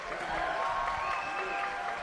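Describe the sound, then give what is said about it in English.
Faint, even applause from a festival crowd in the Merlefest theater at Wilkes Community College, clapping for the Yonder Mountain String Band as a soft, continuous patter. “Come on, let them know about it. That was great. That's a Merlefest crowd.”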